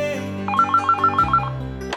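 A telephone rings with a rapid series of short, bright electronic trills over steady background music, with no talk.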